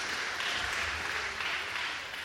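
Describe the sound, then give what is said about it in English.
Audience applause, a dense steady wash of clapping at a moderate level that holds evenly from start to end with no single voice standing out. “Thank you very much. Let's give our king a round of applause.”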